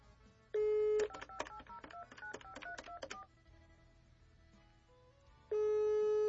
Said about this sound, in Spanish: No, o tiene bloqueado los números desconocidos porque sí alcanza a dar el primer tono.